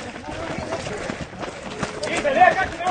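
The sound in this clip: Running footsteps of people in a race patter quickly and unevenly over crowd noise, growing somewhat louder toward the end, while people talk over them.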